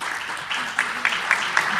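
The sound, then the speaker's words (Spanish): Applause from a full audience in the assembly hall of a cultural centre in Laredo: dense, steady clapping that sustains throughout with individual claps popping out of the wash. “este aplauso sirve para que nuestros oyentes que están en casa sepan que está el salón de actos de la Casa de Cultura de Laredo lleno”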